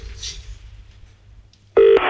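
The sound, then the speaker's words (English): A telephone call is placed to an amusement arcade in Scarborough. A short, loud burst of dialing tone cuts in near the end after mostly quiet line noise. “Today we have used some clips of Susan Jeffers from Laura's self-help cassettes to phone an amusement arcade in Scarborough.”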